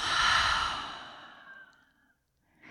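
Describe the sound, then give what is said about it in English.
A long, slow exhale during a New Year's intention-setting ceremony, a breathy sigh that starts fairly strong and gradually fades into quiet, followed by a faint brief sound at the very end. “And let's take a long breath in and out.”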